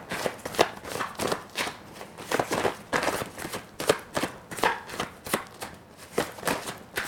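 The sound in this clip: Tarot cards are shuffled and drawn, a long, even run of many soft riffling slaps and flicks in a steady rhythm, moderately loud, with no voices.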